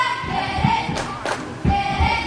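A basketball thuds a few dull times during a game after a missed free throw off the rim, heard over a steady crowd murmur.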